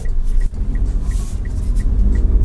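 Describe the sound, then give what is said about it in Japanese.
Steady low engine and road rumble from inside a Daihatsu car as it pulls away and drives, with a faint regular ticking above it and no talk. “さあ走り出しましたけど、やっぱり普通にダイハツの車乗ってるあの感覚ですね。”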